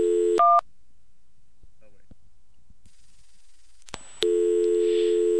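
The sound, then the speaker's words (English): A privately owned COCOT payphone dials a phone nearby. Short touch-tone beeps are followed by a quiet gap, then a loud, steady busy-signal tone that runs to the end. “So, for example, if I try to call the phone next to me,”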